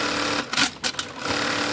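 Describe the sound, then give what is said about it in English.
Sewing machine stitching a bra, tacking on the shoulder straps as one of the final steps in garment production. A loud, steady mechanical whirring, broken by a few short bursts and brief dips near the middle. “This is the sound of a bra in the making.”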